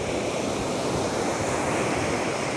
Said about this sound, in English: that soothing water, that sound you hear is the ocean